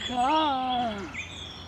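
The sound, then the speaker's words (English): Female superb bird-of-paradise giving her mating call: one drawn-out, buzzy harmonic note lasting about a second, followed by a short, fainter chirp. “The superb bird of Gishadom uses its unique call to alert the male that she is ready to mate.”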